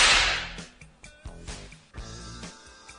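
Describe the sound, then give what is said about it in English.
A whip cracks again and again in a sound collage, with several sharp snaps at an uneven rhythm over a sustained tonal background. “You don't put oil on a whip. No oil on whips. Never oil on a whip.”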